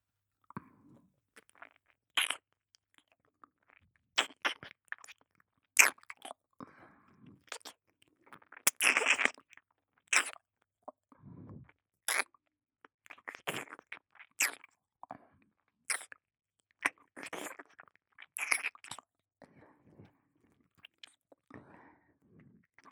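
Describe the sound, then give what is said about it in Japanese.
Wet ASMR ear-licking mouth sounds at the left ear: many soft, irregular smacks, slurps and clicks, mostly faint, with quiet gaps between and no talk. “それでは今度は左側の耳も舐めていきますね。”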